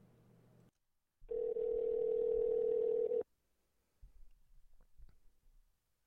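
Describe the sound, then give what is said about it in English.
A telephone line rings after a call is dialed, giving one loud, steady electronic tone lasting about two seconds, with faint low clicks and rustling before and after it. “let's dial him up now and talk to Jay”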